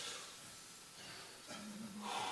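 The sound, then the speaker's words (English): Big, deep breath taken during a morning sermon: soft, airy breathing with a long, steady hiss that grows slightly fuller toward the end. “So often we just need to step back and take a big, deep breath. Don't. Do that with me this morning.”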